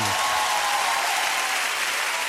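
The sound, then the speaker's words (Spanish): An audience gives a guest warm applause: full, continuous clapping that stays loud and even from start to finish, after a brief tonal sound fades at the very beginning. “Un aplauso para Vicentino. Bravo.”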